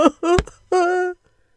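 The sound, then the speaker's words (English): Voices wailing in grief as disciples mourn a companion taken by the river: a few loud, sustained crying tones, the last one held steady and long before it breaks off into silence. “They began to beat their chests and wail.”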